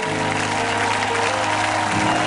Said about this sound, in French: Est-ce que nous pouvons faire monter dans cet endroit une véritable ovation, l'honneur du roi?